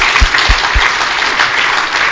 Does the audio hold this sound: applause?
yes